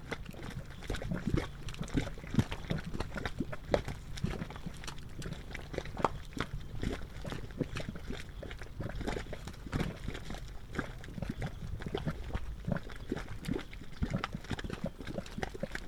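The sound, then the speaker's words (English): Gurgling mud pot in a geothermal area, gases from deep underground bubbling up through wet, multicolored clay mud. A steady, dense stream of wet pops and glugs runs throughout with no pauses and no voices. “Various gases from deep within the earth escape through the wet clay mud, causing it to bubble. The gurgles of this multicolored artist paint pot were recorded by John R. Benham.”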